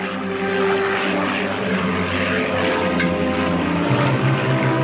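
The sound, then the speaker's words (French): A propeller airplane on a search flight over the mountain range on the Franco-Italian border drones steadily and loudly, its continuous engine hum unbroken and heard alone. “l'avion du capitaine Guérin prenait l'air pour tenter de retrouver l'appareil et survolait la chaîne frontalière franco-italienne”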